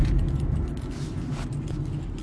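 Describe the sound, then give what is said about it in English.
An emergency vehicle passes on the road as a steady, low engine and tyre rumble that holds fairly even throughout, with no siren standing out. “Let's get out of this emergency vehicle's way.”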